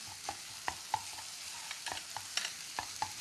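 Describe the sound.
Green onion and garlic frying in a hot pan over high heat, with a faint steady sizzle and many light, regular clicks of a utensil stirring and scraping.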